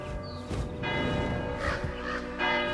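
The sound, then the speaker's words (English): A church bell rings in the spire above a small town of modest timber-framed houses, its sustained metallic tones humming steadily while a few fresh strikes add brighter bursts throughout. “A church spire towers above, and the bird zips past its ringing bell.”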